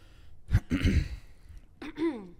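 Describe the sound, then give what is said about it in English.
A person clears their throat after eating hot wings: a harsh, rasping burst, then after a short pause a briefer voiced throaty sound, both moderately loud with no speech around them. “The clear throat. Sorry, yeah. It's kicking in back there.”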